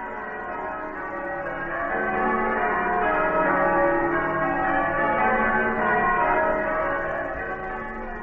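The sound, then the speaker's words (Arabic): Christmas church bells ring in a dense, continuous peal, loud and steady throughout, with many overlapping bell tones and no voices. “أجراس الكريسماس”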